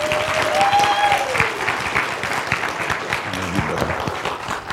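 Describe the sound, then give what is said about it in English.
Applause from a church audience welcoming a guest speaker one morning: many hands clapping in a continuous, fairly even patter that eases slightly toward the end. “So if you would, just give him a hand welcoming him this morning.”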